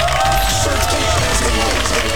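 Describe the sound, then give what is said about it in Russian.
Recorded applause with crowd cheering, played back in a studio: a continuous, loud wash of clapping and crowd noise with a tonal sound running through it, lasting about two seconds. “Вашему вниманию подборные аплодисменты.”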